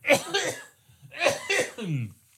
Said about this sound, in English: I think I'm going to cough.